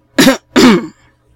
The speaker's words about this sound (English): coughed loudly.